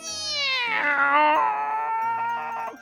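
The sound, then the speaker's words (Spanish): Cat lets out a long, drawn-out meow that starts high, slides lower, and wavers as it trails off. It is loud and clear, with no other sounds. “La culpa era de un gato astuto de garras afiladas y buen cazador.”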